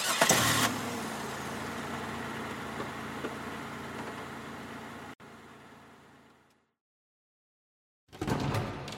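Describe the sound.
A car engine starts with a loud burst, settles into a steady running rumble, then fades into silence before another brief loud burst near the end.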